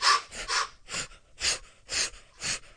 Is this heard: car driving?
no